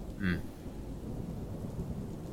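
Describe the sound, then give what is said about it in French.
Thunder overhead rolls as a low, continuous rumble, faint and steady throughout with a brief brighter swell near the start and no clear separate claps. “Quand même assez couvert par le bruit du tonnerre au-dessus de vous.”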